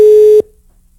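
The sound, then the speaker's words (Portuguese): A telephone line tone during a phone-in prize call: one steady, clear beep lasting under half a second, cut off sharply with a short fading tail, then near silence. “Tá tocando, viu? Será que eu vou atender de primeira?”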